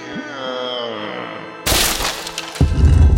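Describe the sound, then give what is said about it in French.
A sword breaking in a video game: a sudden sharp cracking shatter bursts in after a quieter tonal passage, followed about a second later by a heavier, deeper crunching impact. “Merde, j'ai démoli son épée.”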